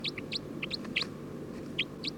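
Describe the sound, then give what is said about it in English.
Short, high chirps from a bird, coming in a quick series of clusters, with a pause before a final pair, over a low steady hum. “Trying to get bird 310. Stop. We're recording bird 306.”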